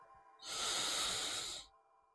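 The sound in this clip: A single deep inhale through the nose, taken as a centering breath, makes a steady airy hiss that lasts a little over a second against near silence.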